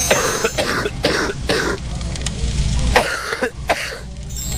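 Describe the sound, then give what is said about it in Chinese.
A deep, heavy cough with phlegm, linked to stubborn phlegm from a weak spleen, comes as many thick, wet bursts in an uneven series with no talk. “顽痰在脾呀，它这个咳的声音应该是更往里了哈， 咳声或者痰声相对比较深一点啊，比较重浊一点 啊，什么样呢？我们一起来听一下。”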